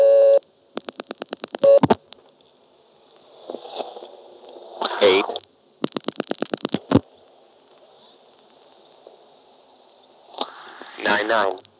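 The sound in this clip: Telephone dialing, a 7 and then an 8, while an operator holds the line: two quick trains of sharp, evenly spaced clicks, with a few other brief noises between and after them.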